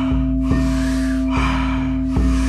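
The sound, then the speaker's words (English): Heavy breathing during an exercise workout: a few loud, rhythmic breath bursts, each a gusty rush, over a steady low hum that continues throughout. “Love hearing the sound of the breath. Seeing the bellies and chest rise.”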